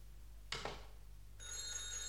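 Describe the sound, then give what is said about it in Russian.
Telephone ringing: a brief noisy burst, then after a short pause a bright, steady electronic ring starts and holds unbroken to the end, fairly faint and with no voices. “Выключите телефон.”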